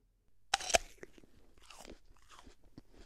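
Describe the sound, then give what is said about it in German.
Someone bites into an apple with two crisp crunches close together, followed by soft, quiet chewing sounds. “Da beißt jemand in den Apfel.”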